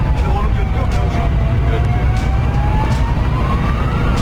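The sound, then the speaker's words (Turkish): A fire engine siren wails as the truck heads to an accident call in Alanya, Antalya, held up by a car that will not yield in the left lane. The slowly wavering tone sits over loud traffic rumble, with a voice talking over it. “Antalya'nın Alanya ilçesinde kaza ihbarına giden itfaiye aracı aynı istikamette seyreden otomobil nedeniyle ilerlemekte güçlük çekti. Sol şeritte ilerleyen otomobil siren ve ikaz lambalarına rağmen itfaiye aracına yol vermedi.”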